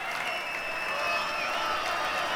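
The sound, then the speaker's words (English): Fake audience applause dubbed onto a studio record, a continuous, uniform spatter of clapping at a steady level, with a faint sustained tone running beneath it. “Fake noise.”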